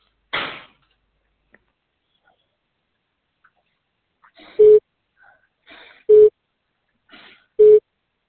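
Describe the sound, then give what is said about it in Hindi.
A telephone busy tone on a dialed number: three short, steady, mid-pitched beeps at even intervals of about a second and a half. A brief noise burst and near silence come before them. “आपके द्वारा dial किया गया number अभी व्यस्त है या इस समय उपलब्ध नहीं है, कृपया कुछ समय पश्चात पुनः प्रयास करें।”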